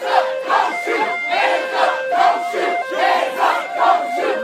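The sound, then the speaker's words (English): Rhythmic shouting from a protest crowd in Charlotte, North Carolina, after a Black man was killed in a police shooting. Many voices chant together on a steady, repeated beat, loud and insistent throughout. “Sound from Charlotte, North Carolina, last night, protests after a black man was killed in a police shooting.”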